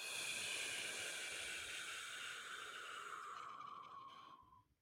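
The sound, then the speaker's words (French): A long, deep exhale during a breathing exercise, a steady breathy hiss that holds for several seconds, then softens and tapers away to silence at the end. “on va faire une dernière double inspiration. Expire.”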